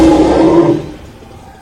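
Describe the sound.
A dinosaur roar sound effect for a touring dinosaur show ad: a loud, deep, rumbling growl that starts at full strength and then fades out, with no voices.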